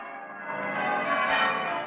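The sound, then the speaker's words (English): Church bells of a town peal on a bright Christmas morning, a dense, sustained ringing of overlapping tones that swells slightly and holds steady throughout, with no voices. “A bright, shining morning, and the bells of the town pealing out there beyond his window.”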